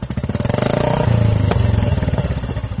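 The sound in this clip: A Bullet motorcycle rides along with a loud, steady, deep thumping engine beat that pulses rapidly and evenly throughout.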